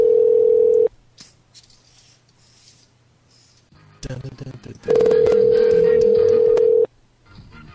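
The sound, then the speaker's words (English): A steady telephone dial tone opens, then returns for about two seconds after a burst of short dialing tones and handset noise, as someone places a call to a convenience store. “Because Mr. Spess is calling me nonstop, it's not letting me dial 7-Elevens.”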